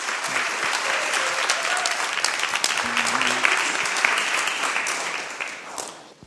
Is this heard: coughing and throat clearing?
no